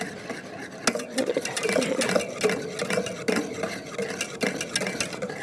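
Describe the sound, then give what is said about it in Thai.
A hand whisk stirs a thickening cream mixture in a bowl, making soft, irregular scraping and light clinking strokes at a moderate level with occasional sharper taps against the bowl. “นี่ก็คือแค่ใช้ตะกร้อคนนะคะเนื้อก็เนียนแล้วนะคะซึ่งถ้าท่านไหนที่ยังไม่มีเครื่องตีเบเกอรี่ก็ใช้แค่ตะกร้อนะคะคนไปก่อนก็ได้นะคะ”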